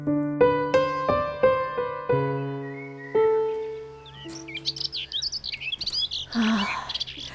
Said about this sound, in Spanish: Poder respirar aire puro, escuchar los pajaritos.